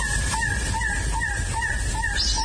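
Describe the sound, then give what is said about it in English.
An elegant trogon, also called a coppery-tailed trogon, calls in Southeast Arizona with a steady series of repeated hoarse, croaking notes in an even rhythm over constant background noise. “That sound you just heard is a coppery-tailed trovon, formerly called the elegant trovon.”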